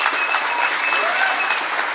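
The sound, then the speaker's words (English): Applause from an audience at a church gathering: steady, dense clapping of many hands that holds at an even, fairly loud level for the whole stretch without pausing. “Then let's clap our hands for him.”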